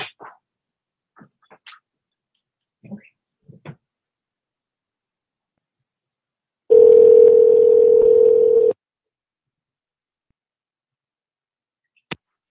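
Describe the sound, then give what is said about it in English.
A single steady ringback tone sounds on an outgoing telephone call, lasting about two seconds and fairly loud, with faint clicks before it and one sharp click after. “Let's try back one more time and see if it goes right to voicemail.”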